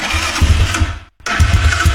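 An ATV engine turns over and runs with a loud, steady, buzzing mechanical rattle. The sound cuts out for a split second near the middle, then resumes at the same level.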